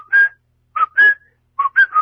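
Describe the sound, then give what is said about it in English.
A person whistles a short Mozart melody, self-deprecatingly, in a thin, clear tone. Several sustained and quick notes come in separate phrases with brief pauses between them, heard alone without speech. “Okay, self-deprecating whistling. That's me. That's Mozart.”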